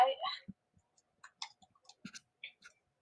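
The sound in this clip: Someone types a search on a phone or keyboard with soft, sparse clicking taps spread across the stretch. A brief voice is heard at the very start.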